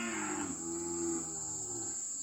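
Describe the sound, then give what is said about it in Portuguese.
A calf mooing during weaning, a faint, drawn-out low moo over steady background noise. “Então, assim, nós estamos falando de bezerro desmama, né? Vamos escutar o som da desmama.”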